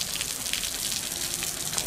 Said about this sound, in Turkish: Fiskeler tekrardan açılıyor bakın. Bakın sırayla su fiskelerine su gelmeye başladı.